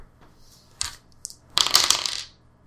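Dice rolled on a table: a brief faint clack, then a longer rattling clatter as the dice tumble and settle, all quiet and without speech.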